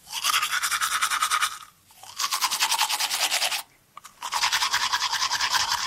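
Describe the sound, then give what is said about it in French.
Vigorous tooth brushing with a toothbrush and minty toothpaste: rapid, rhythmic scrubbing strokes in three loud bursts separated by two short pauses, with no voices. “Voilà, un brossage énergique des dents.”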